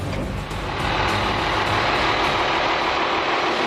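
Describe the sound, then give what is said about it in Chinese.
Vehicles driving past on a hilly military training field, a loud, steady engine roar with a deep low rumble that fills the whole stretch. “我得稍微躲一点，因为旁边还有其他的这个车辆通过。”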